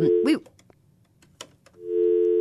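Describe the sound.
A telephone busy signal sounds on a failed call-in line: a short, steady electronic tone at the start, a pause, then a longer held tone at the end, with faint background sounds in between.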